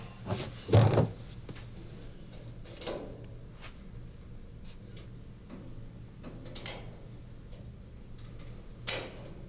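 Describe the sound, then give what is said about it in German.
A special lock tool built by the Stasi is fitted into a cupboard lock, making sharp metallic clicks and light scrapes. A few spaced-out clicks follow a louder clatter near the start, with no voices. “Das ist jetzt ein spezielles Werkzeug, was die Stasi so gebaut hat, wie es schon eigentlich seit 100 Jahren verwendet wird. Jetzt gucke ich mal, ob das auch passt.”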